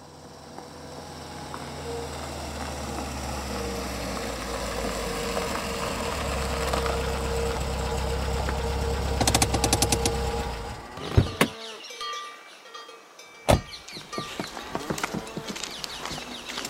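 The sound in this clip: A taxi engine idles with a steady low rumble, then cuts off, followed by a couple of sharp clunks.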